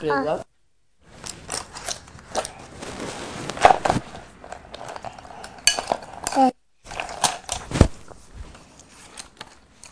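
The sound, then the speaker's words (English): Scissors snip through paper, a few sharp clicking cuts scattered among busy clattering handling noises, uneven and fairly quiet. “I cut the teddy bears. You don't cut books, you cut paper, darling. You don't cut this book.”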